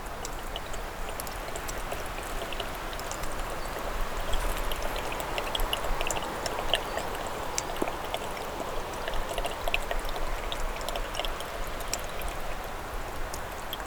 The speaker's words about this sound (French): Une barrière rocheuse. Des gouttelettes d'eau.